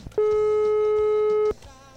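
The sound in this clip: A telephone tone sounds on a call that won't connect: a single steady, mid-pitched electronic beep holds flat and loud for over a second, with faint background noise before and after.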